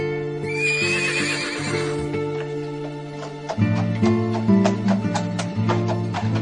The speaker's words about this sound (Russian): Запрягли они старую лошаденку, забрались в телегу и отправились в путь-дорогу.